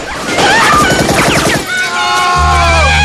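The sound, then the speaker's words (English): Rapid, loud bursts of gunfire as gangsters shoot at a taxi and a man fires back from behind its door, a dense crackle lasting about a second and a half before a steadier sound takes over. “The car stops and Marino's men get out and fire at the taxi. Buster returns fire, using the taxi door as cover.”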